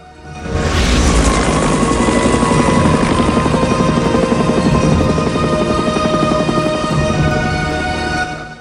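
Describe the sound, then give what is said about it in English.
A helicopter roars loudly across a snow-capped mountain landscape, its rotor chopping in a fast, steady pulse over a dense, constant engine rumble that swells in at the start and holds for several seconds. “A helicopter bursts into the white landscape.”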